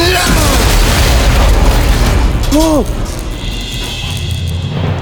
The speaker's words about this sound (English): The machine has been destroyed.